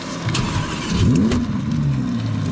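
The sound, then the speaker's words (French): Hoarse roar of a naturally aspirated V10 supercar engine starting, a loud steady rumble that swells into a single rev near the middle, its pitch dipping and then climbing before settling back into a rough idle. “Souffle rauque dès le démarrage, le V10 Atmo ne demande qu'à s'époumoner.”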